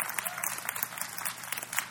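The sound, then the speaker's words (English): Church audience clapping during a worship service, a dense, steady patter of many hands that holds at an even, moderate level throughout. “Give the Lord a big clap.”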